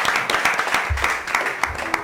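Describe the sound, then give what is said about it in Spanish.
Audience applause for an older woman after she tells a story, with sharp claps standing out now and then over a softer, uneven patter at moderate volume. “Señora, el aplauso para usted.”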